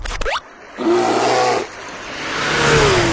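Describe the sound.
Racing engine revving at the Grobnik race track near Rijeka: a quick rising whine gives way to a loud, sustained roar, which dips briefly and then swells again.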